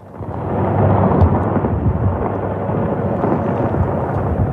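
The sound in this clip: Sounds of war with missiles: a loud, continuous low roar with a dense, crackling rumble that holds steady throughout and has no clearly separated blasts.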